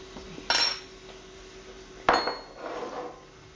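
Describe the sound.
A teaspoon packs meat down into the middle of a dish, giving two distinct metallic clinks followed by a softer scraping.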